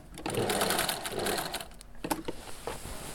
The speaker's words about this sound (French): Alors voilà, quand je veux changer de direction, je lève le pied presseur.